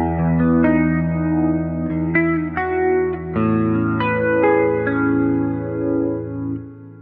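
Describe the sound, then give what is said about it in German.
Notes played through a natural reverb effect with a 3.9-second decay and about a 50% mix form a slow melodic line. Each sustained tone rings on and blends into a lush, spacious wash before the sound fades out at the end. “Mit 3,9 Sekunden Nachhallzeit und 49,8%, jetzt sind wir hier ganz detailliert, im Mixanteil. Das klingt dann so.”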